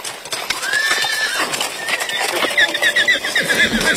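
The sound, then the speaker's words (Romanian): Horses neigh and hooves clop as hundreds of riders in traditional costume arrive on horseback at the Șumuleu Ciuc pilgrimage in Harghita, Romania. A long, loud whinny rides over steady, busy clip-clop throughout. “Printre pelerinii ajunși la Șumuleuciuc s-au numărat și sute de oameni veniți călare, din Harghita și din județele învecinate, îmbrăcați în costume tradiționale.”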